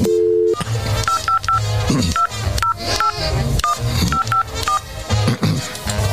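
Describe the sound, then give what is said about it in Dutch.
Touch-tone telephone dialing: a rapid run of many short, clear DTMF beeps at a bright, steady pitch as a phone number is keyed in, with no voices. “Harry Mens, die kan we even bellen.”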